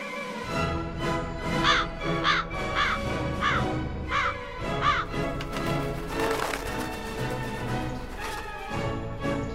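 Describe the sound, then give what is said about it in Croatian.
A Eurasian magpie calls in a run of harsh, rasping chatters, repeated at a fairly even rhythm and standing out over a busy background. “I u gradu žive divlje ptice, a svraka, kao jedna od najinteligentnijih, veoma se dobro snalazi u urbanoj sredini.”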